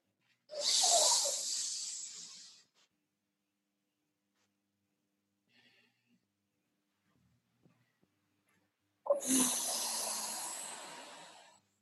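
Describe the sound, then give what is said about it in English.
A deep inhale of breath, followed by several seconds of near silence while it is held, then another long breathy rush of air. Both breaths are soft, airy and unaccompanied by talk. “let's take a deep inhale and hold it at the top.”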